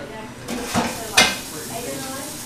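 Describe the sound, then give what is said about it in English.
Dishes being washed at a kitchen sink: a couple of faint clinks and knocks of crockery rise briefly over a steady hiss of running water. “So, okay, I'm going to get some dishes done.”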